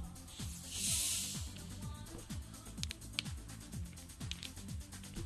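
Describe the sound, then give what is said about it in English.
A cold drink can being cracked open, giving a short, bright fizzing hiss about a second in, over a quiet, rhythmic music bed. “All right. Let's try this. Crack a cold one.”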